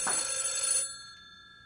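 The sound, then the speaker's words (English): A telephone bell rings in a home in one bright, metallic burst of under a second, and its tone lingers briefly before fading to silence. “can you get the phone, please?”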